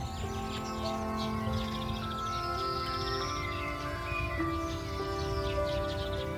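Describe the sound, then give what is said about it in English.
Sparrows, chaffinches and a male blackbird sing in a garden, with overlapping chirps, trills and whistled phrases continuing throughout over a steady low hum. “You can hear sparrows. Some chaffinches. There's a male blackbird singing up in one of his song pots at the top of the garden.”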